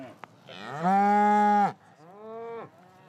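Cattle mooing, cows and calves out on pasture meadows: a loud, long moo followed by a shorter, fainter one, with a faint click just before.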